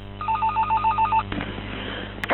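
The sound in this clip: Telephone ringing at the start of a recorded phone call, a rapid run of short, bright ring pulses with a thin, narrow-band sound that stops abruptly, followed by a brief click.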